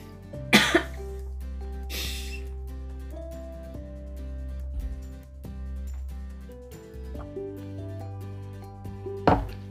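Coughing from chili spice stuck in the throat: three sharp, harsh coughs spread out over the stretch, over steady sustained background music.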